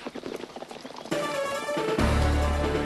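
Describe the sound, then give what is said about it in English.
Galloping horses of Pony Express riders make a quick run of hoofbeats. Loud, dramatic music then swells in and carries to the end. “There was a lot of dramatic music as Pony Express riders galloped across the western landscape.”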